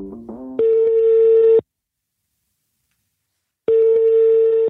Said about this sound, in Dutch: Ik besluit om hem te bellen.